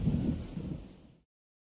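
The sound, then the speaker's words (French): Low rumbling thunder from a thunderstorm, a dense, steady roar with a noisy, rain-like hiss that fades and then cuts off abruptly after about a second, with no voices. “Il y a de l'orage! Oh, de l'orage! J'ai peur de l'orage!”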